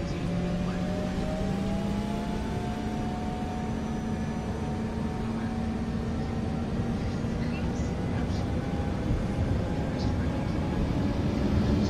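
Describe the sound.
Airliner engines run at takeoff thrust with a continuous loud roar and whining tones that rise slightly as it builds steadily throughout.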